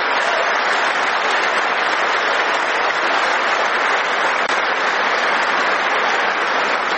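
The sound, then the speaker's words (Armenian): Republican lawmakers give a standing ovation during a presidential address. The clapping is dense, loud and continuous for the whole stretch. “Ուղերձի ընթացքում խանդավառված հանրապետական օրենսդիրները ժամանակ առ ժամանակ կանգնում եւ հոտնկայս ծափահարում էին իրենց լիդերին”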